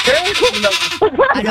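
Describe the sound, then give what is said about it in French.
A person imitates a goat with loud, wavering, quavering bleats. Several shaky cries follow in quick succession, their pitch bending up and down. “je fais très bien la chèvre.”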